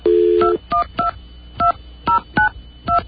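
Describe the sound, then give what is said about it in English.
A telephone number being dialed without the leading 1, with a steady dial tone followed by a quick series of loud, separate keypad tones at an uneven pace. “Now, let's see if it happens if you dial without the 1.”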